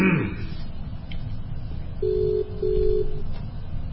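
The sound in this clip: An incoming telephone call rings as two steady mid-pitched tone pulses, one after the other, over a low background hum.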